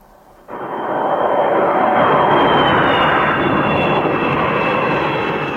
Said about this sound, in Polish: Od poniedziałku szkockie niebo nad Glasgow zapełniło się od prywatnych odrzutowców, powodując niemały korek w przestworzach.